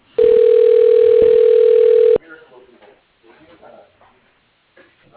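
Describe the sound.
A telephone line rings through to voicemail with one loud, steady electronic tone lasting about two seconds, then a voice speaks quietly.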